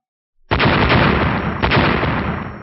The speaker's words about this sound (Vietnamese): Tiếng nổ đinh tai nhức óc liên tiếp truyền ra